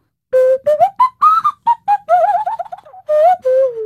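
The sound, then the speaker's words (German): A nose flute is played by blowing through the nose into the mouth while reshaping the mouth to change the note. Short breathy whistle-like tones follow one another in a quick phrase, sliding and warbling in pitch. “Da legt man dann Nase und Mund entsprechend auf und pustet dann durch die Nase in den Mund. Und wenn man dann den Mund verformt, dann kommen da unterschiedliche Töne raus.”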